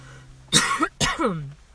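Two harsh, throaty coughs from someone who has choked on hot tea, loud bursts separated by a short pause, with no talk around them.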